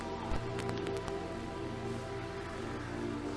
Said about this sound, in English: So sorry for the rain. This is October. The rain is going already.